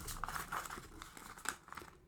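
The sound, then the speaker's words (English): Rustling and shuffling of paper pages from a stack of about twelve script pages, with a few sharp crinkling bursts and softer handling sounds in between, no voices. “I love the shuffling of papers. That was great audio. Man, I don't even need to foley it.”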